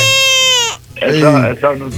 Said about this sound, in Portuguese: Chorou o bebê.